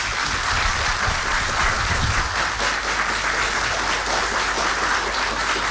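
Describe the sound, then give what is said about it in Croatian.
Audience applause rises for a musician presenting his CD at a live event, a thick, continuous wash of clapping that stays steady and even from start to finish. “Ja bih molio da aplauziramo ovdje.”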